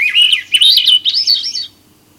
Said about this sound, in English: We're hearing the song of the salmonberry bird, the name indigenous Northwest coastal people gave to the bird known in English as Swainson's thrush.